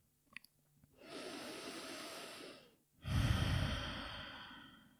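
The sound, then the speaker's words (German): Deep breathing during a guided meditation: a soft, airy inhale lasting nearly two seconds, a short pause, then a fuller, louder exhale that slowly fades. “Nimm hier ein paar tiefere Atemzüge in den Herzraum ein und aus”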